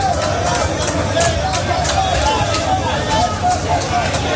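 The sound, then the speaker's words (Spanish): Crowd hubbub outside the Gambian embassy in Madrid, where migrants gather seeking papers during a regularization process. A dense, continuous babble of many overlapping voices stays loud throughout with scattered sharper bursts. “Este es el sonido de la embajada de Gambia en Madrid.”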